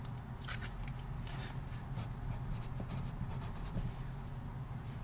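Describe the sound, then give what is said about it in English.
A pen scratches on paper while writing a single word: faint, quick scratching strokes over a steady low background hum. “I'll start with a word and just write down one word.”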